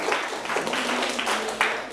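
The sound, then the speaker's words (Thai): Applause from students in a classroom, rewarding a classmate's correct answer during a Thai grammar lesson on prepositions. The clapping is a steady, dense patter of many hands that continues throughout with no clear pause. “ปรบมือให้เพื่อนถูกต้องเช่นเดียวกัน”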